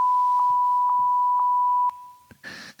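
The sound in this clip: A censor bleep meant to cover names: a loud, steady, high pure beep holds for about two seconds and then cuts off, followed by a few brief faint noises.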